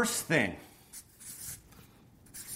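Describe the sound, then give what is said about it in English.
Steps being written out by hand with a pen: a few faint, scratchy strokes with short pauses between them, after a brief voice at the start. “So I'm going to write this out for you and give you guys a few different steps of what I would do and what I'd recommend for you guys.”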